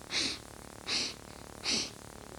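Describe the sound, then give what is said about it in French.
Three sharp sniffs through the nose, made in a breathing exercise that moves only the shoulders. Each is a short hissing intake of air, evenly spaced and standing alone against a quiet background. “Reniflage, trois fois, uniquement en bougeant les épaules.”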